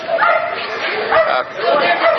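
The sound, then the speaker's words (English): Dog barking, a police dog out on a street, with its sharp calls mixed into an ongoing wash of voices and steady street noise across a couple of seconds. “There's a guy with a police dog following, and more police officers, sheriffs coming, following up from the rear.”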